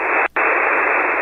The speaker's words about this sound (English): So what we're going to do is we're going to turn audio on, and that's the sound of static.